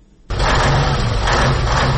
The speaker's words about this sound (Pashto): زه له داسې یو موټر چلوونکي سره په موټر کې ناسم چې له قانوني وزن یې یو نیم ټن زیات سیمنټ بار کړي.